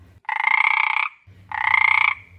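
A frog croaks in two long, loud bursts, each a rapid rattling train of pulses, with a low hum in the quiet gap between them.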